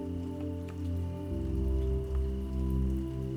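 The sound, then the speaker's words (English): Gentle raindrops fall in a steady, soft patter over a low, even background hum, with no voices. “Close your eyes and come with me as the sounds of gentle raindrops trickle over you tonight,”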